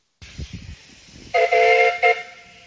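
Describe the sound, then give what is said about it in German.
A steam train on a lake railway beside a campsite gives a loud, sustained whistle blast and then a brief second toot, after a stretch of low rumbling. “Und das war die Baller Lake Railway. Mit der sind wir auch gefahren.”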